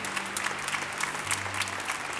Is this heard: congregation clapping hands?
yes